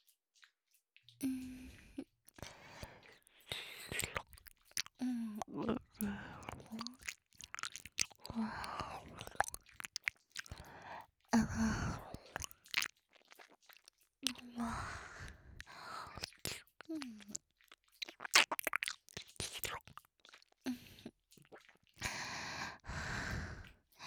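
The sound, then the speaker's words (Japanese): Close-miked ASMR ear-eating mouth sounds: wet chewing, licking and smacking come in intermittent bursts separated by short silences. Soft breaths, sighs and whispery exhales run between the bursts. “じゃあもう一回お耳食べてあげる。”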